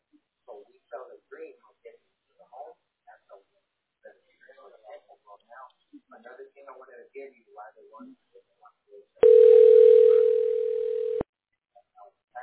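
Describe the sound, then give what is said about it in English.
A telephone dial tone sounds while a call to a tax specialist is placed: a steady, loud, unbroken mid-pitched tone of about two seconds that follows a stretch of people talking, with brief speech after it stops. “Okay, we're going to dial the tax specialist right now.”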